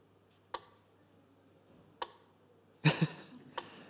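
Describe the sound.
A slow-tempo metronome gives a few sparse, crisp ticks over a faint low hum, with one louder double click near the end.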